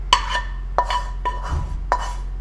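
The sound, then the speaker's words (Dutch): Metallic clinks and clanks come from a pan being washed among dishes. A few sharp, ringing hits are spread out over a steady low hum, with no talking. “Ik weet alleen dat ik deze pan af moet wassen. En eh, ik ga hem eerst helemaal omspoelen.”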